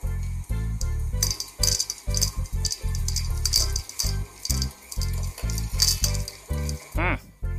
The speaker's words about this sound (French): Tu peux laisser mélanger encore quelques secondes pour que les pépites soient partout dans le cookie.